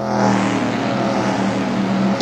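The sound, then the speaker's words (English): A racing car's engine roars steadily and loudly for the whole stretch, a dense droning rumble with a strong tonal whine on top, panned from left to right across the stereo field. “But they seem to have highlighted the use of stereo because the racing car goes from left to right and then”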